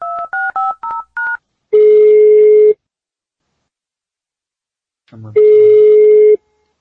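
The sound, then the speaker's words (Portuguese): Telephone keypad dialing for a call: five short dual-tone beeps in quick succession, then two long, steady ringing tones separated by a silent gap. “vamos lá, vamos lá para a nossa primeira ligação”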